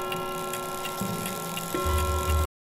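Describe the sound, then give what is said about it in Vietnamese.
Clock ticking in a steady, even rhythm over a sustained droning musical background, with a low hum swelling in the final second before the sound cuts off abruptly. “Lúc này kim đồng hồ đã dịch chuyển có 3 giờ sáng.”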